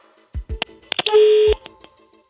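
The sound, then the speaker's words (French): A telephone number being dialled on a touch-tone keypad: a quick series of sharp electronic dialling beeps, one held noticeably longer, with a few soft low thumps in between. “On va faire sonner le téléphone chez vous. C'est parti, on est en train de composer le numéro.”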